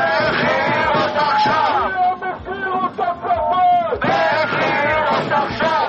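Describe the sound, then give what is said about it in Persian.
Thousands of Israeli protesters in Tel Aviv demonstrate for the release of hostages, a loud crowd shouting and chanting in overlapping voices that swell and dip continuously. “همزمان با شکست مذاکرات آتش‌بس روز شنبه در تل‌آویو، هزاران اسرائیلی با برپایی تظاهراتی گسترده خواستار آزادی فوری گروگان‌های اسرائیلی از دست حماس شدند.”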